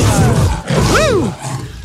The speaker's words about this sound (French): Il est bel et bien présent, le lion, là, ce matin